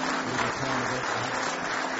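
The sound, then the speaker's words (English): Congregation clapping their hands in praise during a church service, a dense, steady patter of many hands that holds at an even level throughout, with no break. “Let's give Him one more hand clap of praise.”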